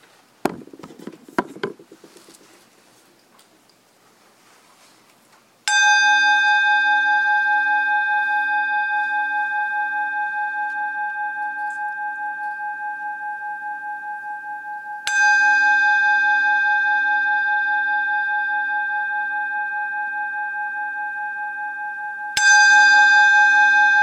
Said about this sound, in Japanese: その鐘を聞いて、鐘に注意を向けて